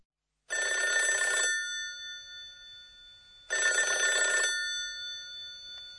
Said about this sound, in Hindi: ये भी फोन की घंटी ही लगती है। बिल्कुल, ये डायल घुमाने वाले फोन की घंटी की आवाज है।